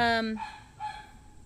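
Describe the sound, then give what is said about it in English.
A neighbour's dog gives one loud, harmonic bark that cuts off quickly, followed by a fainter, muffled sound. “That's my neighbor's dog. No worries. She's lovely. She's just loud.”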